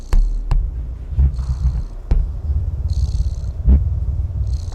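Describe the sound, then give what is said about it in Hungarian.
Cat purring played through a vibrating video game controller speaker: a low, steady rumbling purr in soft repeating breathy pulses, broken by a few sharp clicks. “Halljátok? Dorombol a cica, és jön a kontrollerből a hang.”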